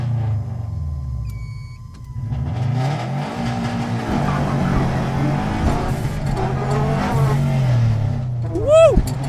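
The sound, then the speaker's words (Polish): A car pulls away from a race start line with a loud, steady engine roar that builds as it accelerates. A brief rising squeal comes near the end. “Stajemy na linii startu. No i jedziemy.”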